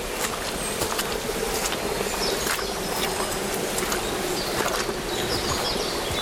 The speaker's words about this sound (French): Au bord du chemin, petite cascade.